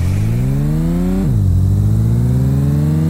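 A car engine revving in a racing video game, a black car with a quattro all-wheel-drive mode: the loud, steady engine tone climbs in pitch, drops abruptly once as a gear shifts, then climbs again.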